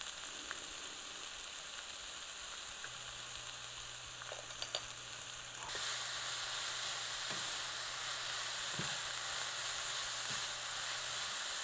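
Fruit sprinkled with sugar cooks down in a pan with a steady sizzling hiss that grows noticeably louder about halfway through, with a few faint clicks and a low hum underneath.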